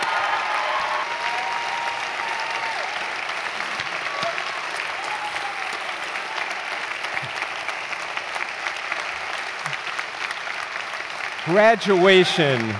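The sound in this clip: An audience applauds graduates at a graduation ceremony with sustained, even clapping for about twelve seconds. A voice speaks over the applause near the end.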